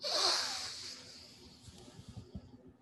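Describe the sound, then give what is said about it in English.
A quick inhalation during a guided breathing exercise: one sharp, hissing intake of breath at the start that swells briefly and then fades into faint low rustling. “And one more time, inhale quickly.”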